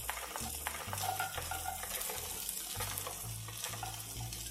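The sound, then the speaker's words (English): Golden raisins, about a quarter cup, go into onions that have been frying in a pan for nearly ten minutes. A steady bright sizzle runs throughout, broken by repeated scraping stirs, with no talking. “started frying our onions. They've now been cooking for close to 10 minutes. Now is when I add a fourth of a cup of golden raisins”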